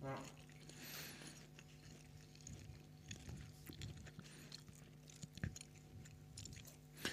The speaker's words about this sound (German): Beyond Meat Burger. Ich schmatze.